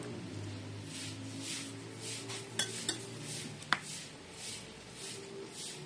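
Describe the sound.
Dishes, pots, pans and cutlery being washed by hand, with soft rhythmic swishing of water and a few sharp metallic and crockery clinks in the middle, no talk.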